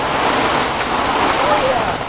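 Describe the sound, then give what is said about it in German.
Strong storm wind gusts during a lightning and hail storm at an outdoor music festival make a dense, loud, continuous roar and rush that barely lets up over about two seconds. “Alles war gut, doch dann kam der Sturm.”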